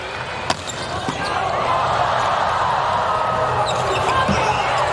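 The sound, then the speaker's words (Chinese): A volleyball serve with sidespin during a Japanese team's match: one sharp hit of the ball, then a loud, steady crowd roar that swells and holds. “后面是宫浦健人的发球，他发球比较有特点，带一些侧旋。”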